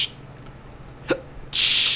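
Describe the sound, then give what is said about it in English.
A voice imitates a hiccup with a single short, sharp gulping catch in near quiet, followed by a brief burst of breathy hiss. “I hiccup between each soda. He hiccuped in between each one. Hiccup.”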